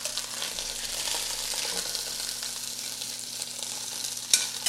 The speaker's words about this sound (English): Trying to get these shanks browned is not easy because they're not like a uniform size.